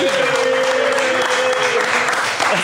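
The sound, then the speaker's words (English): Comedy club audience applauding after a comedian calls for noise: a dense, steady burst of clapping from many hands, loud and even throughout, with a held vocal tone riding above it. “Wait, we gotta make some noise for that.”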